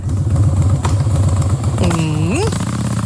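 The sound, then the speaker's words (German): A Harley-Davidson motorcycle engine idles with a loud, deep, pulsing rumble in a steady loping rhythm that continues for the whole clip. “Kann man auch direkt riechen, ne? In Dresden finden wieder die Harley Day statt.”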